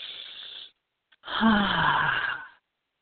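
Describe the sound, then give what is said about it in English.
A deep breath taken during a guided meditation: a soft, airy inhale, a brief pause, then a longer, louder breathy exhale with a faint voiced sigh, alone in silence. “Let's take a deep breath in.”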